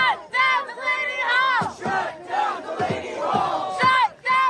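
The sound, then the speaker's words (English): Protesters outside the Delaney Hall ICE detention center in Newark, New Jersey, shout and chant in loud, rhythmic bursts, with several voices raised together and short pauses between the chants. “Sounds we're listening to there from protesters outside Delaney Hall. This was recorded by WABC. Delaney Hall is an ICE detention center in Newark, New Jersey”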